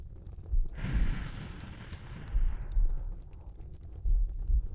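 A slow, deep breath in and out, heard as one long, airy, breathy rush that swells and then tapers away over about two seconds, followed by quiet low rumbling.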